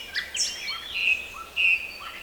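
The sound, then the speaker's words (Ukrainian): Nightingale song in spring, a few clear whistled phrases and short trills with brief gaps between them, moderately loud and heard alone. “Минула осінь, зима, і навесні з вирію повернувся Соловейко.”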